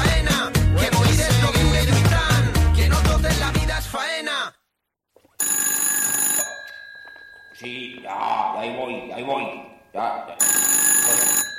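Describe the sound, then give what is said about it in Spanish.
A telephone bell rings in two loud, high, buzzy bursts after music cuts off into a moment of silence. Other sounds fill the few seconds between the rings. “O teléfono. Sí, que ya voy.”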